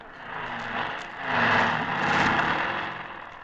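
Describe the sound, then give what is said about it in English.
Motorcycle engine starting up and running: a continuous mechanical roar that swells louder after about a second and holds steady. “A very noisy windshield wiper. Joanie, you started the motor. Turn it off.”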